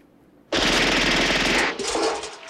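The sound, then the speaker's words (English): A machine gun fires a single rapid burst at a water-filled dustbin, a loud dense rattle of shots lasting just over a second that breaks off abruptly and is followed by a short, quieter tail. “He puts the magazine into the machine gun and takes aim.”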